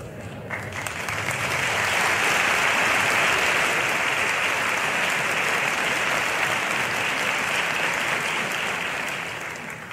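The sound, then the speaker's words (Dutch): Applause from an audience of about 500 in a theatre at a year-end cabaret show, greeting the accompanist: dense, loud clapping swells in after a second, holds steady, then eases slightly at the close. “Dit applaus, luisteraars, is voor de begeleider Ru van Veen”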